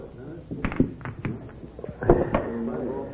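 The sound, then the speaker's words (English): Pool balls clacking on a pool room table as a shot banks the six ball: a few sharp, hard clicks scattered over a few seconds, mixed with people talking. “Hey, nice shot, Curly. Bank the six ball.”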